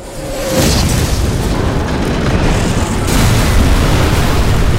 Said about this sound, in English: The tank gunner loosed another round. His next shot missed Magog clean and exploded inside the shell of a building to the left.